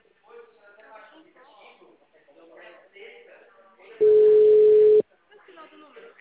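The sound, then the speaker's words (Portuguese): A telephone tone sounds while a call is being placed: one steady, loud, mid-pitched beep lasting about a second, set between stretches of quiet Portuguese speech. “Tô ligando.”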